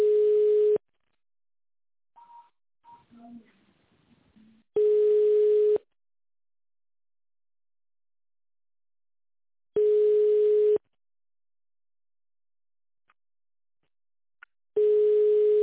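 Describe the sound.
Telephone ringback tone while a call is forwarded to an operator: a steady single-pitched tone lasting about a second repeats four times at roughly five-second intervals, with faint short blips and clicks in the gaps.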